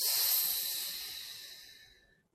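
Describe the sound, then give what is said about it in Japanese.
A slow exhale during a breathing exercise: one steady, airy hiss of breath that starts strong and gradually tapers off over about two seconds, with no talking. “一回息を吐いて、ふぅ。はい、じゃあ吸いましょう。胸が動かないように吸って。 吐きます。”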